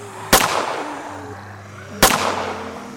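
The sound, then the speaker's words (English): Two gunshots fired at zombies ring out as sharp, loud cracks well apart, each with a short ringing tail, over a low, steady background tone. “She fired a gun at a few of them.”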